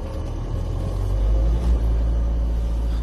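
Car driving, a continuous low engine and road rumble that stays fairly loud and even throughout, with no talking.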